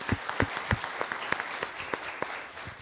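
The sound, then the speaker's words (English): An audience applauds to welcome a guest, with dense, steady clapping of moderate loudness and a few sharper claps rising above the wash. “Can we welcome Cheryl this morning? Let's give Cheryl a great big hand.”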